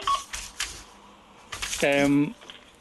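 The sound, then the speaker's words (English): A brief electronic telephone tone, a short bright chirp of stacked tones, cuts in while people talk about archaeological sites. “Sorry about the phone.”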